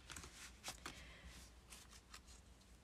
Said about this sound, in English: So let's pull a goddess card and see what goddess needs to come up for us this week.